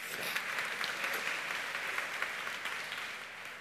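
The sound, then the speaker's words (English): An audience claps in a steady patter of many hands, fairly soft and even across the whole stretch, with no voices standing out. “Give her a clap.”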